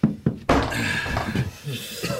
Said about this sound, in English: Come in, I'll shut the door.